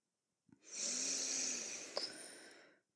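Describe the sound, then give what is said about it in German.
A deep, slow inhale through the nose lasts about two seconds. It is soft and airy with a steady hiss, begins with a small click and has a faint snuffle near its end. “Atme mit mir tief ein”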